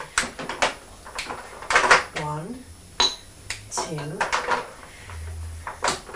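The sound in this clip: Pieces being broken up by hand and dropped into a bowl give a few sharp clattering knocks, with an adult and a child talking over them.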